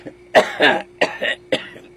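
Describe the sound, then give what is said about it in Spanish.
An elderly woman coughing, with a run of harsh, raspy coughs in short bursts separated by brief gaps, loud and alone. “Ay, abuela, qué tos.”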